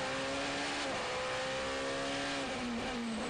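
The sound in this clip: Race car engine at a FIA WEC race at Circuit of the Americas, driving through turn 19, the penultimate corner, an over-the-brow downhill left-hander. A loud, sustained engine drone holds steady, then dips slightly in pitch near the end.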